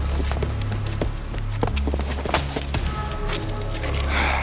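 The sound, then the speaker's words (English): Running footsteps of a woman fleeing three men while carrying her groceries: quick, irregular footfalls over a steady low sustained musical drone. “Veronica runs away from the three men, holding on to her groceries. Not used to running or evading people this way, Veronica slips a few times. But very soon, the three men are on her.”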